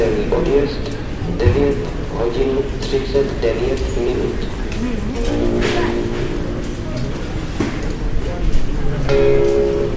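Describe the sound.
Busy ambience at a Prague railway station: a steady rumble of train and passenger traffic runs throughout, with people talking over it the whole time.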